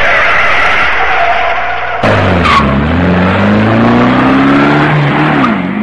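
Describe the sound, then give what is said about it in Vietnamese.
A taxi car drives off with tires squealing. A loud continuous engine drone climbs in pitch as it accelerates, cut through by a sharp, bright squeal burst partway through. “Cô đành vẫy taxi để về nhà.”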